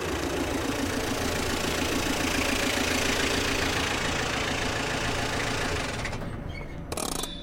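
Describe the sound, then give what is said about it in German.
A car engine idles as the vehicle comes to a stop outside a hospital. The low rumble stays dense and steady, then thins near the end, where a short louder burst follows. “Das Fahrzeug kommt zum Stehen vorm Krankenhaus.”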